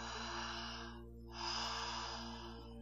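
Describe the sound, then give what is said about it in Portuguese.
A slow breath drawn in and then let out through the mouth, two soft airy rushes split by a short pause, over a faint steady low hum. “você vai levar a atenção para lá e vai inspirar e soltar o ar pela boca”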